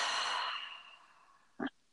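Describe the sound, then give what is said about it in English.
A deep breath released through the mouth during a guided relaxation, a soft, airy rush that fades over about a second, followed by a short, faint puff, with no talk. “take one big juicy breath in through the nose and out through the mouth”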